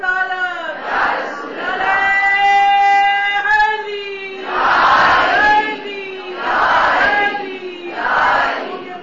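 A crowd shouts the Allahu Akbar chant in unison in response to a takbir call. The shouts come as several loud, drawn-out, chanted bursts separated by short pauses.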